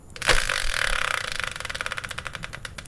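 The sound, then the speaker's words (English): A game-show style prize wheel spinner is spun: a loud whooshing start gives way to a rapid rattle of clicks that gradually slow and space out as the wheel winds down. “let's bring in the Wheel of Fortune style spinner, give it a turn, and find out what today's subject will be.”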